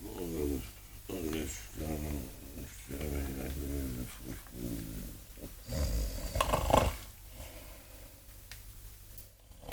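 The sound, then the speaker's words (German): A man snoring: a series of rhythmic, rasping, low-pitched pulses, fairly faint, followed by a louder, noisier burst and then quieter breathing. “Oh, der Tote schnarcht ja.”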